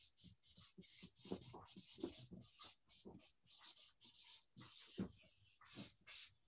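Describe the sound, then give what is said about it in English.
Marker strokes squeak and scratch on a board as a model is written out. Many short, rapid strokes come in an irregular rhythm, with no talking. “So while I wait for people to come up with a question or volunteer a question, I'll just write the model out right here.”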